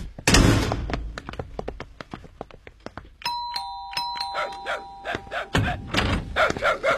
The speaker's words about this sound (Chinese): 我妈妈在家，我给你开门啊。